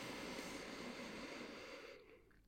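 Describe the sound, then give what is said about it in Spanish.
A slow deep inhale during a guided breathing exercise: a faint, steady airy rush of breath that holds for about two seconds and then tapers off. “Antes de cerrar, te invito a que tomemos unas respiraciones profundas. Inhala conmigo.”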